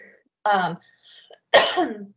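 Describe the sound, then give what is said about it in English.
A person clears their throat and coughs from a tickle in the throat: two short, harsh bursts about a second apart, the second one louder and rougher. “Excuse me. About the time I start talking, I get a tickle in my throat.”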